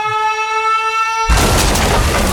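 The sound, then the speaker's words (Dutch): A bomb blast sound effect: a sustained, harmonic electronic tone cuts off abruptly into a loud, broad roaring rumble that carries on to the end. “De caloriebom is ontploft.”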